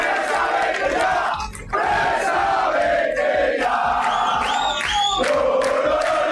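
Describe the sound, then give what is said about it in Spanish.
Rayo football fans protesting and chanting en masse at their stadium in Vallecas: a dense, loud crowd roar with shouted chants that holds steady throughout, dipping briefly once. “Protestas de la afición del Rayo, concentrada ayer en el estadio”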